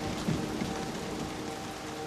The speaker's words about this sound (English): As the torrential rain beats down